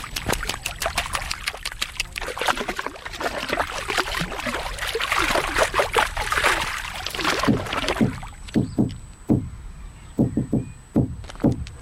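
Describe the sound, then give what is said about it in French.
Lake water outdoors in nature, sloshing and trickling in a busy, irregular wash of splashes that thins out toward the end into separate distinct splashes and drips, fairly loud, with no talking. “Le son du lac, de l'eau du lac, et la nature”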